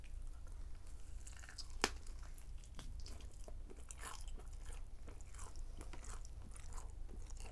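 Chewing on reheated food: quiet, irregular crunches and bites repeating throughout, with one sharper click early on and no talk.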